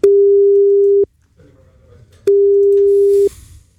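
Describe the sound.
Telephone ringback tone while calling a mobile number, two steady one-second beeps of a single mid-pitched tone separated by a pause, loud and clean with faint background noise between them.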